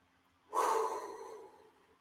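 A single deep breath drawn in through the nose, starting abruptly and strong, then tapering away over about a second, heard alone without talking.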